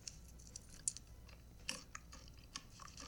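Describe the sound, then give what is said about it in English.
Crunchy pretzels being chewed: several crisp, sharp crunches rise over a quiet, steady chomping, all faint and with no talking. “Ugh, this chomping.”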